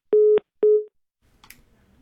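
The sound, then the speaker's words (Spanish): Telephone busy tone after a cut-off call: two steady mid-pitched beeps of equal pitch with a short gap between them, followed by faint, scattered low noise. “Bueno, ahí, como usted puede ver y como usted puede escuchar, se cortó la llamada.”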